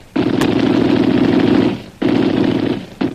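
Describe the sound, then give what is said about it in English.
Rapid gunfire, shots fired over a man's head as a warning: a long, loud sustained burst, a pause, a shorter second burst, then the start of a third, with no voices. “I'll fire over his head.”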